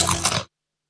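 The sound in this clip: Biting into crunchy thick-cut potato chips: one short, loud, crisp crunch that cuts off abruptly into silence.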